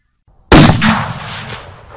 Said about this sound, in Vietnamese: Một tiếng nổ lớn phát ra, sau đó thì mọi thứ bỗng nhiên im bặt